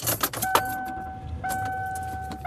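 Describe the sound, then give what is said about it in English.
Car interior while driving, with a low engine rumble under scattered clicks and rattles. A steady high electronic tone sounds twice. “I am driving home.”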